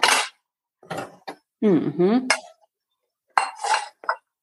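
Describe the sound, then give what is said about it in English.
Clinks of two serving bowls being set down side by side while noodles cook, a few short, bright knocks separated by a person talking. “Then we get 2 serving bowls.”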